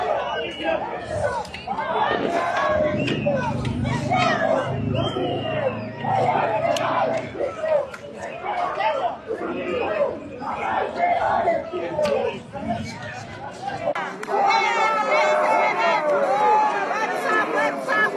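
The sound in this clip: Striking workers chant loudly as a protest march moves through central La Paz toward the seat of government to demand the president's resignation. Massed voices shout in rhythm, with bursts of louder cries near the end.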